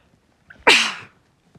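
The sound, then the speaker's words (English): A single sneeze bursts out sharply after a faint intake of breath, loud and brief, then tails off quickly into quiet. “that wasn't too bad of a sneeze.”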